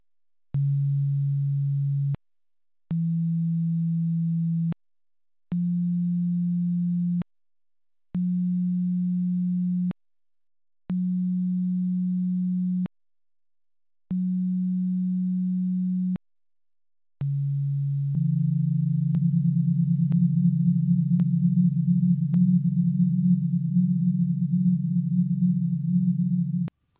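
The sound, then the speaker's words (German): Pure sine oscillator tones, programmed in Pure Data, sounding the Lyman series fundamentals transposed down into the audible range: six separate low, steady tones with short gaps, then a long sustained cluster of tones together. “Diese Frequenzen können nun um 42 bzw. 44 Oktaven nach unten transponiert und so in den hörbaren Bereich gebracht werden. So klingen zum Beispiel die Grundtöne der Lyman-Serie.”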